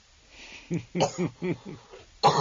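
Coughing and throat-clearing after choking on something: a few short, voiced, hacking bursts in a row, followed by a harsher, louder burst at the end. No other voices.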